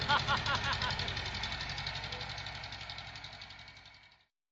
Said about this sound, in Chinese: 你这是开拖拉机上哪里去啊？